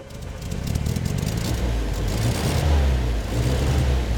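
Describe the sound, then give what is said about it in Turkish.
A car engine, started with ignition and starter on real petrol, catches about half a second in and settles into a loud, steady low rumble that holds unbroken to the end. “Kontağı ve bas marşı. Bastım.”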